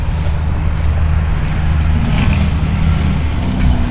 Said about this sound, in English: You can hear the highway.